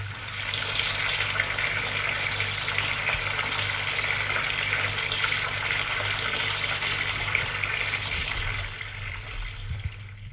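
Shower water running as a steady, dense hiss that holds evenly for about ten seconds and eases slightly near the end, with a low hum beneath it.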